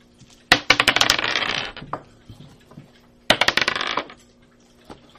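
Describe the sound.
Dice clatter as players roll for initiative in a Pathfinder tabletop game. Two separate bursts of rattling, bouncing clicks come about three seconds apart, each tumbling briefly before settling.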